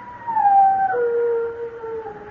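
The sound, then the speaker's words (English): A dog howls once, a long, loud, wavering tone that drops in pitch partway through and then holds steady, heard alone without voices. “Means someone's going to die when a dog howls like that.”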